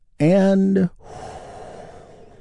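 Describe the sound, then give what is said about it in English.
A deep breath released as a loud, voiced sigh during a guided relaxation exercise. It lasts under a second and is followed by a softer, steady breathy hiss. “Let's take another big, deep, healing breath right now, all together.”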